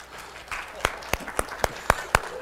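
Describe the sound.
Scattered applause from a church audience during a service, heard as six distinct sharp claps in a fairly even rhythm over a quiet background.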